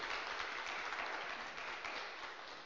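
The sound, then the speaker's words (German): Applause from an audience at a church Bible session, thanking a woman. The clapping is dense and steady, faint throughout, and eases slightly toward the end. “Lass uns Waltraud einen Applaus geben.”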